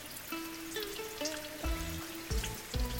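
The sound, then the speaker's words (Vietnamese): Heavy rain at night makes a dense, crackling patter that runs steadily throughout at low volume, with soft sustained musical notes stepping underneath and a few dull low thumps near the end. “Mưa khuya tầm tã”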